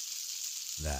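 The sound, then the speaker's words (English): Steak sizzles on a grill with a bright, continuous crackling hiss, and a voice briefly cuts in at the end. “Meat grilling. Steak on a grill.”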